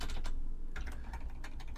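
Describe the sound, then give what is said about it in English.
Typing on a computer keyboard while entering text into a notes list, a quick run of soft clicks over a low steady hum, fairly quiet and with no talk. “So let's say I type AAA,”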